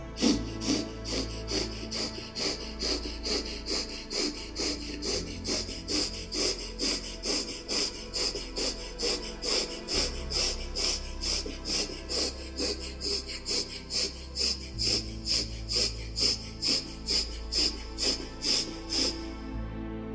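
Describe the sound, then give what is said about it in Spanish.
Rapid nasal breathing in and out, paced quickly to build energy, with many short, evenly spaced breaths in a steady rhythm over about twenty seconds. A low sustained drone runs underneath. “que hagamos respiraciones a un paso acelerado para crear energía en nuestro cuerpo para iniciar este proceso. Siente cómo entra en tu cuerpo y se expande el diafragma. Vas a inhalar y a exhalar por la nariz. Así.”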